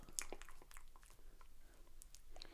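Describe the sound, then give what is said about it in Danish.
Crunchy chewing of a klejne, a small Danish fried pastry, tasted fresh from an industrial oven. Faint, uneven crisp bites and mouth sounds come in a loose irregular rhythm. “Jeg prøver lige at smage en Klein.”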